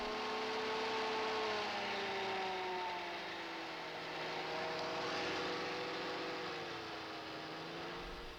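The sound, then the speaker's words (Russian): A car engine drones steadily as the vehicle pulls away, its tonal hum drifting and wavering in pitch over a broad, continuous rumble of noise. “Пошла машина!”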